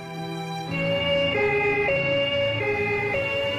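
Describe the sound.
An emergency vehicle siren wails alone in a loud two-tone pattern, switching between high and low pitch in regular steps over a low rumble.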